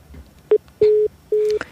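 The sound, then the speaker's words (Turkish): Telephone busy tone from a failed call-in line: one short beep, then two longer steady low-pitched tones, with a faint click at the very end. “Maalesef bizi bekleyemediler. Herhalde telefonda da bir arıza çıktı.”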